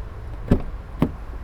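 Two dull, solid thumps of car doors shutting as people get into a car, spaced about half a second apart over a low background hum.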